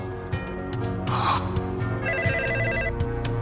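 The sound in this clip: A telephone rings with a bright, warbling electronic trill. It starts partway through and lasts about a second over a steady low background. No voices.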